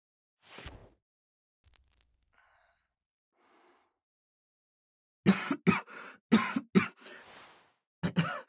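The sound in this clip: Coughing from someone who choked as something went down the windpipe: a brief breathy gasp, a quiet pause, then a run of many harsh, loud coughs in rapid bursts, ending with a final pair.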